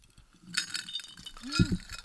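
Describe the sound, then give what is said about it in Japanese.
Glasses clinking in a toast, a few bright, ringing chinks mixed with voices. “はい、乾杯。”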